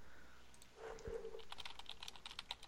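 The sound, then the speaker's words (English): Someone typing on a computer keyboard, a quick run of many faint keystroke clicks, following a soft low thump early on. “I can hear the keystrokes.”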